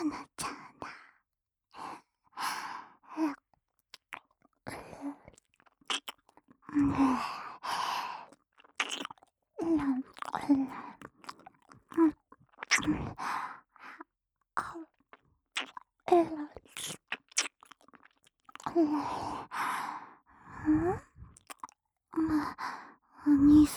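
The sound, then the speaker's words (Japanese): A voice pants heavily, with many irregular breathy sighs and soft moans coming in uneven bursts and short pauses. “今度は、はぁはぁって、息が荒くなってきた。”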